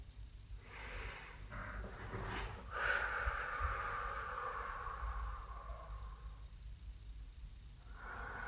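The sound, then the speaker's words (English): Slow, deep breathing, with a few soft, airy inhales and exhales that swell and fade, faint and unhurried, without talk. “take a couple nice deep breaths with me.”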